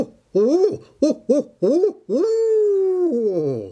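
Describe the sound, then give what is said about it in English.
Barred owl hooting call: five rhythmic, resonant hoots, the first four short and the fifth long and drawn out, dropping in pitch at its end, heard alone without other sounds. “That is a barred owl. And barred owls are very, very common, and they're very docile,”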